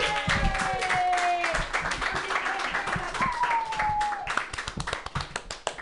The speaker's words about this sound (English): Put your hands together. It's Sam Carroll, yay!